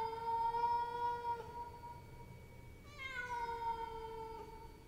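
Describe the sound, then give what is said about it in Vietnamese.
A cat meows a few times in long, sustained calls. The last call starts higher and slides down in pitch, and it comes just before the cat jumps out of a window into a garden. “Con mèo nghiêng nghiêng đầu nhìn thằng Luân, đoạn kêu lên mấy tiếng meo meo”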